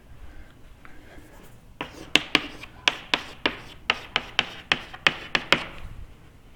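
An equation written by hand: soft scratching gives way to a quick, regular run of many sharp taps and strokes. The writing is moderately loud, with no talking.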